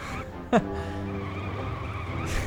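A car drifting in a video game: a continuous droning engine with skidding tires, a sharp squealing burst near the start, and a swell of noise at the end.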